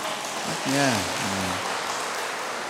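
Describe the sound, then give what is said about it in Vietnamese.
Audience clapping during a Buddhist dharma talk, a steady, soft patter that continues throughout while a voice speaks briefly over it. “Vỗ tay rồi đó nha. Vỗ tay rồi là ký hợp đồng với Phật rồi đó.”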